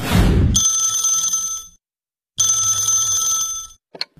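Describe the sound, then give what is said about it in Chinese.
A telephone rings in a home on a residential estate one morning: two long, loud bursts of bright, buzzing electronic ringing separated by a short silence. “这不这天早上，住在爱家小区的老何就接到了一个让他特别开心的电话。”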